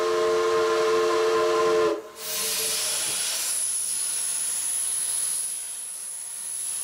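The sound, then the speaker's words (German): Computer-controlled plasma cutters at a shipyard cut parts from large steel plates with a loud, steady rushing hiss and a thin high whine, which take over after about two seconds of low humming tones. “Plasmabrenner, computergesteuert, schneiden die Teile aus großen Stahlplatten heraus.”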